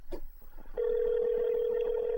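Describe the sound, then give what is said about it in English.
Telephone dialing out on a call: a few short clicks give way to a steady, continuous mid-pitched line tone that holds unbroken to the end. “All right, I'm calling him.”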